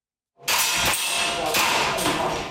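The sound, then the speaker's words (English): Air guns fire at targets in a Taipei basement where a dozen civilians practice shooting. Sharp pops recur at regular intervals over a loud, continuous noisy wash. “In a Taipei basement, a dozen civilians fire air guns at targets.”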